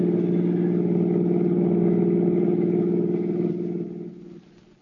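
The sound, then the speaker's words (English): A car engine hums steadily at mid pitch as the car drives toward the George Washington toll bridge across the Hudson River, then fades away at the end. “The two criminals and their victim, Mr. Julius Siegel, drove toward the George Washington Toll Bridge, across the Hudson River in Siegel's car”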